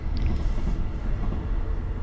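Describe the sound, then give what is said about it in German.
A train passes by an open window, making a continuous low, heavy rumble with a rough, churning texture throughout and no voices. “nachdem der Zug durch ist, wir haben das Fenster offen, ist doch noch ein bisschen warm.”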